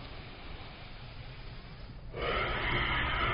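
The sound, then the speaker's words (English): A slow inhale through the right nostril during a breathing exercise: a steady, airy hiss that swells in suddenly partway through and holds evenly to the end. “So just taking a last inhale through that right side”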